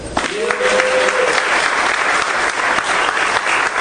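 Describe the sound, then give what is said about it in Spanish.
Audience applause for a minister: dense, steady clapping from a crowd that stays loud and even throughout. “Un aplauso para el”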